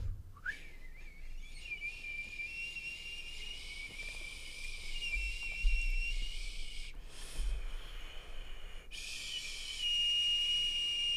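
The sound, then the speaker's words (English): A person whistles while thinking, a quiet, sustained high-pitched tone that slides up at the start and then holds steady. It breaks off briefly a couple of times before resuming, with faint breathing beneath. “I'm whistling and thinking.”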